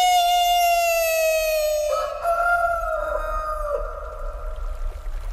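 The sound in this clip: A rooster's crow rings out as one long, sustained, reedy call lasting about four seconds, then gives way to quieter rough noise.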